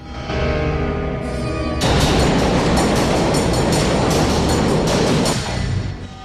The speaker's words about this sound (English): Chucky and Andy are on the train, which crosses a bridge.